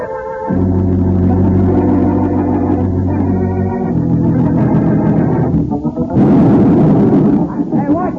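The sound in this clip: A blasting charge explodes, overloaded enough to damage a foundation, and gives a deep, drawn-out booming rumble that sustains for seconds. A sharper burst of crackling noise comes late in the sound.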